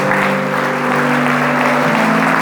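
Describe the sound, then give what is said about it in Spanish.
Steady applause from an audience at a religious service, dense clapping sustained throughout with a low held tone underneath. “¿Cuántos le pueden dar un aplauso a papá en esta hora?”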